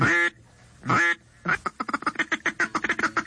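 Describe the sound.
Duck greeting and feed calls: two drawn-out nasal calls separated by a pause, then a rapid chattering run of many short, clipped quacks, loud and alone.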